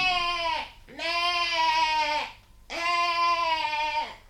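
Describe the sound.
Three long, wavering goat bleats serve as a radio-drama sound effect. Each is a loud, nasal, strongly tonal cry that sags slightly downward at its end, with short pauses between them.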